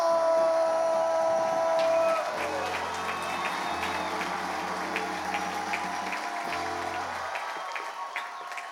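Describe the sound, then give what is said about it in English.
Dense audience applause greets the host of a Bible-themed comedy show. It breaks in after a sustained musical note and continues as a busy crackle, with low music tones lingering beneath. “That applause never gets old.”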